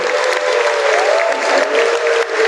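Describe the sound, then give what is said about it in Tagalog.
Applause from an audience at a ceremony honoring athletes and coaches bound for the Asian Games: dense, continuous clapping that stays loud and even throughout, with a faint crowd murmur underneath. “Palakpakan po natin ang ating mga sarili.”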